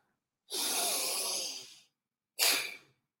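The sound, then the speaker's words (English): Two forceful, airy breaths from a pranayama breathing exercise: a long, strong hissing breath of about a second and a half, a short silence, then a quicker, sharper breath that fades out. “Breathe in, breathe out.”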